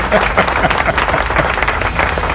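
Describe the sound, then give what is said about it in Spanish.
A recorded applause effect played from a computer: a dense crowd clapping at a steady, loud level, continuous from start to finish. “¡Aplausos! ¿Dónde están los aplausos? Los aplausos no están en queue, como siempre. Siempre los primeros no salen hasta que ahí a la computadora le da gana que salgan.”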